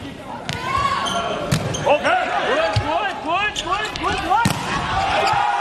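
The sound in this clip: A volleyball serve during a match between two teams: a few sharp, hard ball strikes cut through a steady, loud crowd din with cheering voices.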